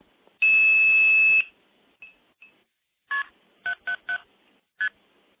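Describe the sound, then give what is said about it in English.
Blue box multifrequency tones dialing a direct SIP connection code, KP, three sevens and start, into a phone line: a long, loud, steady high tone, two faint blips, then five short, clean two-tone beeps in a quick cluster. “I do have a direct SIP connection into Telefreak that can be dialed using a blue box. That's with KP777START.”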